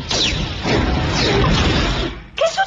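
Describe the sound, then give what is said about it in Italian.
Warning shots fired from the film Spaceballs: loud, continuous blaster bursts with falling zapping sweeps and a crashing rumble, ending in a brief sharper burst. “Sparate qualche colpo di avvertimento.”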